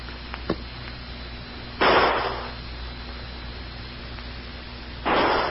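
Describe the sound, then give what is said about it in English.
Gunshots fired as an evenly spaced signal calling for help: two loud, sharp blasts a few seconds apart over a steady hiss, with a small pop before the first. “And those shots are too evenly spaced to be anything but a call for help.”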